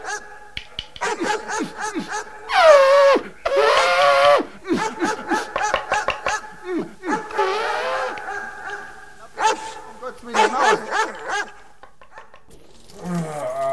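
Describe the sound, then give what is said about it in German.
Dogs barking in many irregular bursts of varied loudness, mixed with whining and yelping sounds of shifting pitch, with short gaps between the outbursts. “da kommen ja die Hunde”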